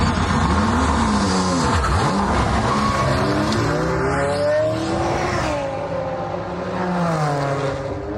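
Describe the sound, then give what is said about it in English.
Race cars adapted for disabled drivers roar around a track. Loud engines rev continuously, their pitch sweeping up and down as cars accelerate and pass. “That's the sound of a car race by Team Brit. And while their vehicles sound great”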